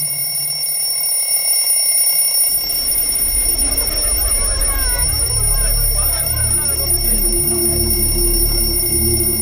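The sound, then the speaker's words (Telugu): A village alarm that rings at exactly eight at night, sounding as a steady, piercing high-pitched ring held throughout. After a couple of seconds a loud, low rumbling wash joins it. “రోజు రాత్రి సరిగ్గా 8 గంటలకి ఒక alarm మోగుతుంది.”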